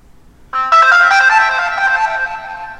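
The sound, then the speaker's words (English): Phone text message alert tone: a bright, melodic electronic chime that starts after a short quiet pause, rings out loudly with layered tones, and slowly fades without any talk over it. “But what I've selected for text messaging is this.”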